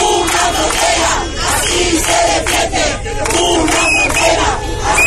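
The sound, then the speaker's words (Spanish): Between 200 and 300 protesters chant and shout loudly at a roadside sit-in in Ceuta after being stopped from reaching the border. The massed voices keep up a steady, forceful roar. “El de la sentada a pie de carretera, el sábado, sin que le permitieran llegar hasta la frontera. No eran muchos, entre 200 y 300, pero se les escuchaba.”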